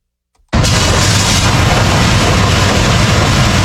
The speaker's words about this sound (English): That's the sound of DOT road crews in Cobb County clearing out storm drains ahead of the rains from Hurricane Isaias.